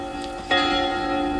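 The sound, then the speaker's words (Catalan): Church bells ringing, played as a sound effect in a guessing game: sustained, layered metallic tones that continue throughout, with a fresh, louder strike partway through. “les campanades. Les campanades.”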